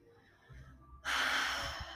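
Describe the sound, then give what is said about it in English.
A deep breath drawn in through the nose during a mindfulness stress-reduction exercise: a loud, airy rush that starts suddenly midway and holds for nearly a second, after a quieter low murmur. “Take one more deep breath in through your nose.”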